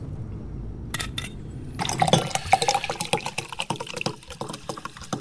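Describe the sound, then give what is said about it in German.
Liquid pours and splashes as water is poured from mineral water bottles and drunk, with many short, irregular sloshing and gulping sounds growing busier after a quieter start. “stellte Sergeant Gallo sofort ein paar Flaschen Mineralwasser auf den Tisch und sie tranken in großen Zügen.”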